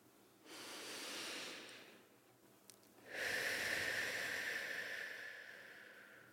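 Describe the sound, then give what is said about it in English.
A deep breath taken to open a guided mindfulness session: two long, airy, breathy rushes, the second louder and longer than the first, heard alone with no talk. “Join me in starting with a deep breath.”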